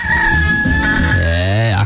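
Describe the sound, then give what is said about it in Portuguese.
A rooster crows once, loud and drawn out for nearly two seconds in a single continuous call. “Tá com o galo nos seus ouvidos, ó.”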